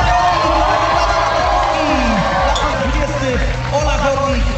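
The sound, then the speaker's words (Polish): Cheering and applause rise from an audience at an orienteering competition, a dense, continuous roar of crowd voices with shouts mixed in, holding loud and steady throughout. “Prosimy o gorące brawa!”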